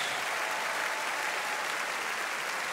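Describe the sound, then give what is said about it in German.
Steady, dense applause rises from the crowd at a show-jumping event in Aachen as a German rider enters the arena on his Westphalian stallion. The clapping stays even and continuous throughout, with no talk over it. “Sie hören die großen Sympathien, die ihm jetzt hier in Form des Applauses schon entgegengebracht werden”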